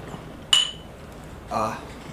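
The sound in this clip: Beer glasses clink together in a toast, a single bright strike with a brief ringing tail, followed about a second later by a softer, broader burst of sound.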